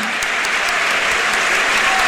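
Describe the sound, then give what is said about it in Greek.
A packed stadium crowd at a national-team football match applauds in encouragement, a loud, continuous roar of many hands clapping that holds at an even level throughout. “ακούτε το χειροκρότημα ενθάρρυνσης από την Ξέβρα.”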